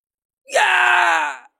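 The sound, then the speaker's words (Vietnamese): A person shouts loudly in one sustained, strained cry lasting about a second, standing alone against silence. “Có người hét lớn.”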